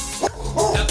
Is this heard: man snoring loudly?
no